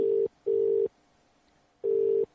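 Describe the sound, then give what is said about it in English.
Telephone ringing tone: a steady mid-pitched electronic tone that sounds in repeated on-off bursts. The bursts are separated by short silences and a new burst begins right at the end. “I guess we could stop the ringing, right? I like this sound.”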